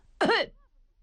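A single short, throaty cough, voiced by a performer imitating a character just before he steps inside. It is loud and abrupt with a harsh rasp, and silence follows.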